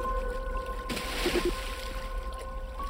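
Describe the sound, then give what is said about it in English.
Splash as something bursts through the water surface beside a sailboat, a single sudden rushing burst followed by a fading wash over a steady low hum and faint tonal whine. “At that moment, something burst through the water beside us.”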